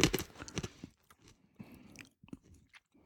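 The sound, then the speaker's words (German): Crunchy wasabi-coated dried peas being chewed, with loud, rapid crunching bites at first, then quieter, scattered crunches and chewing sounds, with no talk. “Das werde ich jetzt mal essen und dir dann auch anbieten. Mhm. Auch mit Wasabi.”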